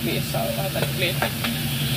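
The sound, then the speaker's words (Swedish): Bread frying in a pan with feta sauce and chives, giving a steady, loud sizzle. Light scraping clicks from stirring sound throughout. “Här har vi stekande bröd med fetasörsel och gräslök.”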